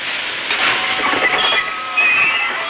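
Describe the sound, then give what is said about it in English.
A steam train engine pulls into a crowded station platform, heard as a loud, continuous rushing hiss with faint rattling texture and a couple of slight surges. “on a crowded train platform, sunlight beams through clouds of steam as the engine rolls up”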